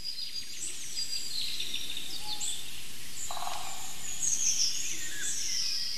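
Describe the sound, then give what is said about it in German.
A golden oriole sings, giving faint whistled phrases among other quiet high bird calls over a low, steady background rumble. “Er hält den Schnabel, weil der Pirol so wunderbar heute aussingt, muss man schon sagen.”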